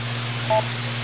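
A single short timer beep cuts through steady hum on an amateur radio net. The brief dual-tone blip sits alone, with no talk.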